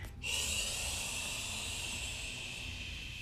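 A group exhaling together in a power vinyasa yoga class, a long, steady, airy hiss that starts abruptly and slowly tapers over about three seconds.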